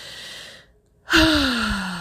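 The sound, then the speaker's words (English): A deep breath drawn into the belly during guided breathing: an airy inhale, a short silent pause, then a louder, partly voiced exhale that falls in pitch. “So let's take some nice deep breaths. We're going to fill our belly.”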